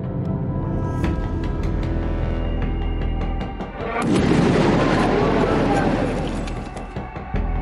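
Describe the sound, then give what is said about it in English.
Gunshots fired at former Japanese Prime Minister Shinzo Abe during a street campaign speech in Nara ring out as loud, sharp bangs. Crowd noise and voices surround them and swell into a broad commotion. “The nation of Japan is in shock today with news that the former Prime Minister Shinzo Abe was shot. Eyewitnesses say that Mr. Abe was shot twice from behind while giving a speech in the street.”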